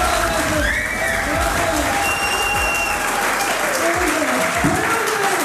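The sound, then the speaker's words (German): An audience of inmates applauds at a comedy show inside Hagen prison, producing dense, steady clapping mixed with crowd voices from start to finish. “So klang es am Abend in der Justizvollzugsanstalt in Hagen. Kein gewöhnlicher Gefängnisalltag, sondern eine Comedy-Show.”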